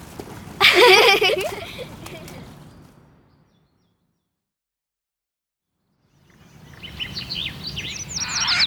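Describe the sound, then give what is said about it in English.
Birds chirping in quick, high twittering bursts: one near the start and another that builds toward the end, separated by a stretch of silence, over a low rumbling background. “They're birds.”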